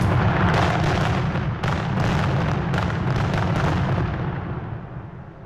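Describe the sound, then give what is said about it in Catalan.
Fireworks rockets burst in a dense, loud barrage. Booms and crackles merge into a continuous roar that thins slightly toward the end. “Has escoltat això? Sí. Són coets o és el meu cor? Són coets.”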